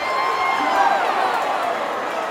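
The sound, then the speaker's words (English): Racetrack crowd at the Kentucky Derby in Louisville cheering for a photo finish, a steady, continuous roar of many voices. “The audience in their big bright hats, pastel suits, and floral printed dresses cheer and jump for the photo finish.”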